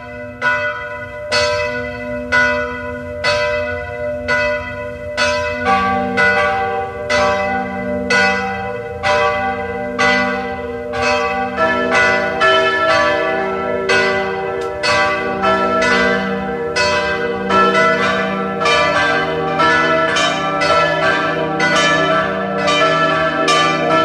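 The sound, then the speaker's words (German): Church bells of a pilgrimage church in Ebenthal near Klagenfurt peal at noon, many steady, resonant strikes overlapping in a regular rhythm. More bells join as the ringing goes on, building a fuller, louder chime. “Es ist 12 Uhr. Sie hören die Glocken der Wallfahrtskirche Maria Hilf zu Ebenthal bei Klagenfurt.”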